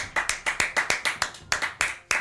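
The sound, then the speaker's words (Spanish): A lone slow clap: roughly a dozen sharp, loud handclaps at an even, deliberate pace, with nothing else heard between them. “Un aplauso.”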